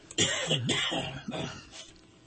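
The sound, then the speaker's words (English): Throat clearing from a tickle in the throat, a few gruff, voiced bursts, the first loud and the later ones weaker, trailing off at the end. “Excuse me, I have a tickle in my throat here.”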